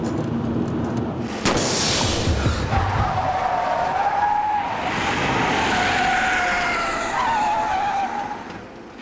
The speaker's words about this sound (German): Der Reifen ist im Arsch.